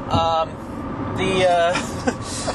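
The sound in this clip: Road noise inside a moving car: a steady low rumble runs beneath voices talking back and forth.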